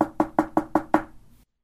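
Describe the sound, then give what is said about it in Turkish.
Six sharp knocks on a door come in an even, quick rhythm, each with a short hollow ring. The last one fades out into silence. “Birden kapı çalınmış.”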